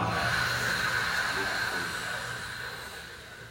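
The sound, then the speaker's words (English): A person does a throat-clearing exercise on a harsh 'ach' sound, producing one continuous raspy hiss that holds for several seconds and slowly fades as the air runs out. “we're going to breathe in together. And on the ach, we're just going to keep clearing our throat till we run out of air.”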